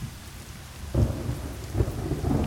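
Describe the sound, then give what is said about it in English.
Rain pouring down on dry land in a steady broad hiss, joined by deep rumbles of thunder that swell at two points partway through. “So the rain pours down on the thirsty land”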